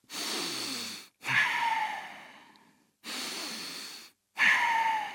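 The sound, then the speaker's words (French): Deep, forceful breathing from a patient with flu, a cough and fever during a doctor's examination. Four strong breaths come in two in-and-out pairs, each a loud, airy rush separated by brief silences. “Maintenant, respire fort.”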